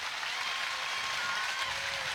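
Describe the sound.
Applause for a singer at a folk song and dance ensemble concert, a faint, even wash of many hands clapping that continues without a break.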